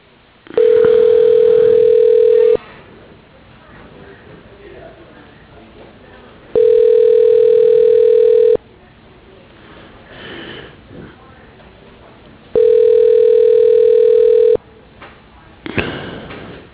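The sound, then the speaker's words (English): A telephone line tone sounds while a call is transferred to voicemail: three long, steady mid-pitched tones of about two seconds each, evenly spaced, with low background noise in the gaps. “I can transfer you over to his voicemail, and you can leave a message, and he can give you a call back.”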